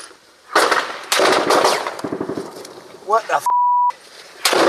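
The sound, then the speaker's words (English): Gunshots are fired at civilians fleeing in their cars: a couple of sharp, loud bangs cut through shouting voices, and a bleep tone sounds near the end. “They do exist, as we found out. That's a bullet.”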